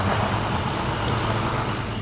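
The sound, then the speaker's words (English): Steady, fairly loud engine rumble of a refrigerated truck arriving at a gate from the city morgue, a low motor drone that holds unchanged throughout with no voices. “A refrigerated truck arrives at the gate from the city morgue. It's carrying the remains of 14 people to be taken over to Hart Island.”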